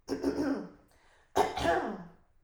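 A person clears their throat with two rough, raspy bursts separated by a short pause. The sound is moderately loud, and the second burst is sharper.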